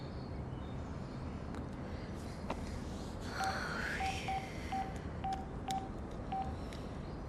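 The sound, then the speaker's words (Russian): A telephone number is dialed, producing a run of short, evenly pitched touch-tone beeps over a steady background hiss. “Надя звонит по телефону.”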